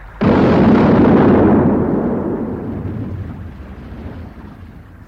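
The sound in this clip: A heavy artillery gun fires a fragmentation shell at a building's windows: one sudden loud boom, then a long rumbling roar that slowly fades, with no voices.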